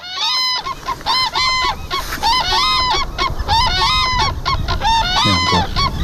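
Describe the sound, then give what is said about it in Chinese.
A black-necked crane family calling in a high plateau wetland, the two adults giving loud, high, trumpeting honks repeated many times in quick succession, their calls overlapping as in a duet. “在我们观察的时候，黑颈鹤家庭的两只成年鹤发出了鸣叫，高亢的鹤鸣清晰可闻。”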